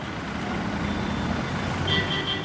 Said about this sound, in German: Quälend langsam schiebt sich der Bus durch den Stau der Wirtschaftsmetropole Pune.